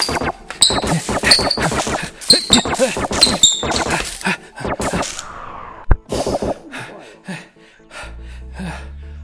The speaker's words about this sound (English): They fired at me. They were ordered to.